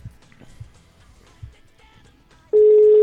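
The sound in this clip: A telephone ringback tone on an outgoing call starts abruptly near the end as a steady, loud, unbroken tone, following a stretch of faint low rumbling and scattered soft clicks.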